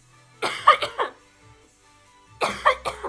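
Coughing and throat clearing from a person with something caught in the throat: two clusters of harsh, rough coughs, each made of a few quick bursts, separated by a short quiet pause.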